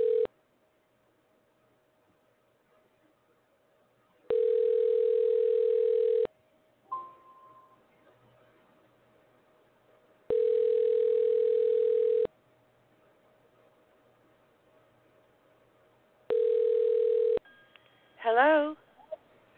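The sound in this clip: An outgoing telephone call ringing on the line: three long, even ring tones of about two seconds each, separated by longer silences over a faint steady hum. A person answers and speaks briefly at the end.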